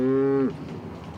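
A cow moos once, a low drawn-out call from cattle on a floating dairy barn moored in Rotterdam. The moo stops abruptly and is followed by faint background noise.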